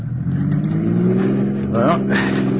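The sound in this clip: A car engine revs and accelerates as a getaway driver is urged to step on the gas. A steady, loud mid-pitched drone runs throughout, with a brief rising whine near the end.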